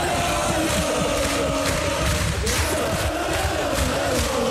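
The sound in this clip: A stadium crowd roars and cheers over Elversberg's promotion to the Bundesliga, a dense and unbroken wall of voices that holds at an even, loud level from start to finish.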